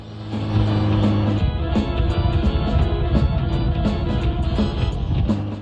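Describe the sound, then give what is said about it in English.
Kawasaki GPZ 550 motorcycle ridden with a pillion passenger, its engine droning loudly and continuously with low rumbling harmonics and fluctuating revs. “The priest rides Pillion on Noddy's GPZ 550 as they race back to Noddy's house.”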